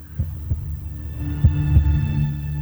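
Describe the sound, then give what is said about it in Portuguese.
Low heartbeat thumps come in two double beats over a steady droning musical hum, soft and without any talk. “O que tem uma música com o coração batendo no fundo?”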